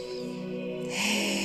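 A deep inhalation during a guided breathing meditation: a soft, breathy rush swells over the last half second, above sustained tones of calm background music.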